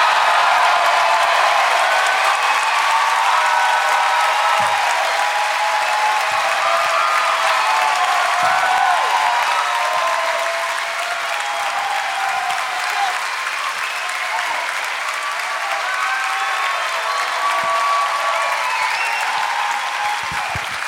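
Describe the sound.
Loud, sustained audience applause welcomes guests onto the stage at a live show in Boston. Dense clapping runs steadily for about twenty seconds and eases only slightly toward the end.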